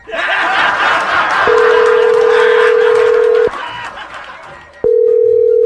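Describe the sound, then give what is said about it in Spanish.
A telephone tone sounds as a call is being dialed during a prank call: two long, steady beeps, the first about two seconds, the second starting near the end, over dense, loud background noise. “ahí te va, ahí está marcando, ahí está marcando, ahí está marcando”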